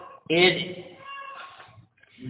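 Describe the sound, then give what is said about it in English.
A cat gives one loud, short meow, a bright harmonic cry that quickly fades, followed by quieter low sounds. “Bye, cat.”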